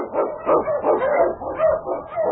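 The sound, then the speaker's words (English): Husky sled dog barking in a rapid string of many yelping barks, mid-pitched and fairly loud, coming in quick uneven bursts without a pause. “On, King! On, you husky!”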